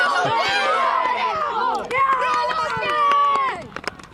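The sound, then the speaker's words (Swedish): Cheering supporters shout for a youth team at Hamre IP sports ground in the rain. Many voices overlap in loud, sustained high-pitched shouting and chanting, easing off near the end. “Ja, som ni hör, det är full fart här ute på Hamre IP. Heja klack har vi hittat här också.”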